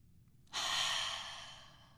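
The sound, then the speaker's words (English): One long breath drawn in during a guided relaxation exercise, a soft, airy hiss that swells quickly and then fades gradually over about a second and a half. It is quiet and no one talks over it. “All right, now let's take a breath together.”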